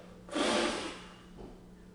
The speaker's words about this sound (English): I'm going to breathe upon you. No, no, people try to breathe people over, but the Lord said he breathes upon disciples.